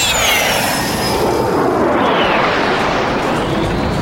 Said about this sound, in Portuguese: Atenção passageiros do Excélsior Turismo. Decolagem autorizada.